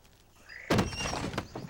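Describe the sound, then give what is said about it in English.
A cabin door is flung open with a sudden loud thump, followed by a short rattling scrape as it swings and a fainter knock just before the end. “He flings open the door.”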